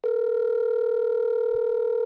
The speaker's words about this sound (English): I was starting to get suspicious of how many times it was ringing.